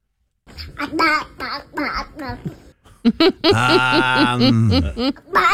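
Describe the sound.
A baby girl babbles a run of short "a-ba-ba" syllables, then breaks into a longer, high, sustained squealing laugh as she throws her head back.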